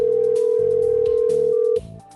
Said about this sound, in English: Come on. Pick up your phone. Come on. Pick it up. Come on. Please pick it up.